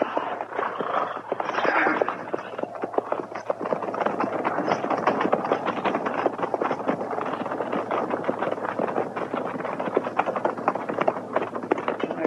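Hooves of a cavalry company's horses setting off at a walk make a dense, steady clip-clop of many overlapping strikes. The sound keeps an even level throughout, with a light wind-like rush underneath.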